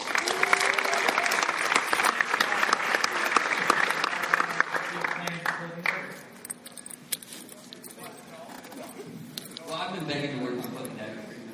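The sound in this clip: An audience applauds comics writer Nick Spencer onto the stage with loud, dense clapping for roughly the first half. The applause then tapers off, and talking emerges toward the end.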